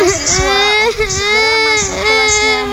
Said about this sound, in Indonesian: Fira, adik kamu kenapa? Dia nangis karena gak boleh main di luar sama aku, Mo.